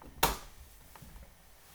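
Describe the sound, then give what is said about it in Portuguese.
A single sharp click as the Enter key is pressed on a computer keyboard, brief and crisp, followed by quiet. “Vou dar Enter.”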